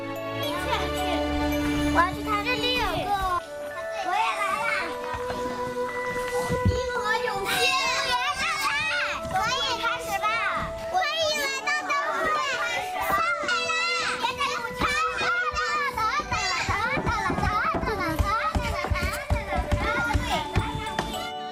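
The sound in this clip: Children playing and laughing together in a yard while carrying lanterns; many high, overlapping voices shout, chatter and giggle, loud and busy throughout.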